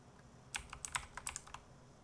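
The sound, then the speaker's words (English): Typing on a computer keyboard to enter a team name: a quick run of several faint, crisp clicks in a short burst, with quiet before and after. “How do I type it in? I think you click on the team name.”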